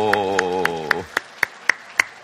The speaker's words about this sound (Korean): 먼저 힘차게 박수해 주시고 열광적으로 쳐주시고